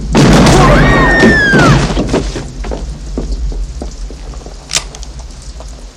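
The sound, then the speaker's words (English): A gunshot from an Old West shootout in which an unarmed man is shot: a loud blast that rings with whining tones for under two seconds, then quieter noise and one more sharp crack. “You just shot an unarmed man.”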